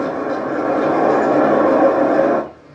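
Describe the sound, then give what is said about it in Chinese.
A train passing by as a boat also approaches, heard as a loud, steady, broad rumble that holds for about two seconds and then quickly dies away. “就是船过来了，然后火车也过来了”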